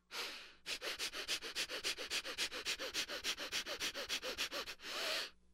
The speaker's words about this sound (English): Practiced new breath of fire from yoga class.